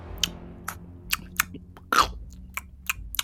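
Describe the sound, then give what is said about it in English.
Munching and crunching from something eating: a run of many sharp, wet bites and chews at an uneven rhythm, with one louder, longer crunch about two-thirds through, over a low steady background. “munching noises, eating noises”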